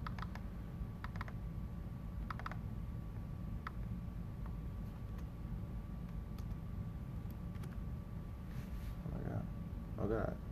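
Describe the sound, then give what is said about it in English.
Typing on a computer keyboard: sparse, faint key clicks scattered irregularly over a steady low hum. “I'll type it right here. Okay. Yeah, just type it right there.”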